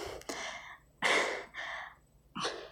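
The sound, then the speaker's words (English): A person breathes hard in several heavy, gasping bursts of air, each breath loud and breathy with short gaps between them, in an uneven rhythm. “yes, I'm breathing hard”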